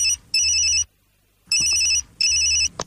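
A telephone ringtone rings in loud, high-pitched electronic bursts, repeating in a steady pattern with short silent gaps between them and no voices.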